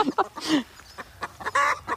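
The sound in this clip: A hen cackles after laying an egg, giving a series of short, uneven squawking calls in irregular bursts of varying loudness, with no talk over them.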